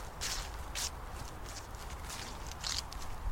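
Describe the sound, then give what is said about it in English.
Footsteps walking through leaves on grass, faint and crunchy, with a few brief rustling steps spaced irregularly over a soft background hiss. “walk through the leaves on the grass, back down to the path, hop across the wee burn.”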